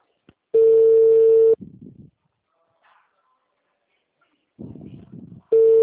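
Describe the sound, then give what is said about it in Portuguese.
Ringback tone of a phone call about to forward to voicemail: a steady, mid-pitched beep about a second long, then a long quiet gap with brief muffled bursts, then the beep starts again at the end. “Chamada encaminhada para a caixa postal.”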